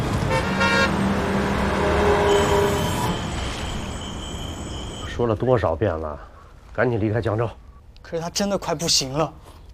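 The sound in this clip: A car engine runs loudly with a harmonic hum and tonal, horn-like notes, then gradually fades as people begin talking.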